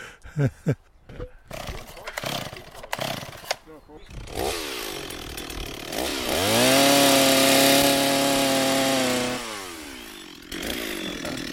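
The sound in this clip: A four-stroke chainsaw used for forestry and green-space work revs up after some talk. It becomes a loud, steady engine roar that holds for several seconds, then drops back to a lower idle.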